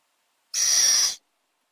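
A little owl chick gives a single short, harsh, hissing call lasting well under a second, standing alone against silence.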